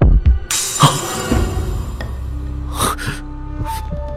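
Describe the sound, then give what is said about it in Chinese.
A sharp, slap-like crack snaps out early and loud, followed by fainter scattered noises and breathy sounds. “紧接着响起了书页缓缓翻起的声音，啪的一声脆响，像是凭空一个巴掌，又像是什么东西狠狠地抽过了一般。”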